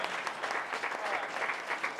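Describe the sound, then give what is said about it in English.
An audience gives a short round of applause for young attendees at a public event, with dense, even clapping that stays moderately soft for about two seconds. “All the young people right there? Great. Give them a round of applause for showing up.”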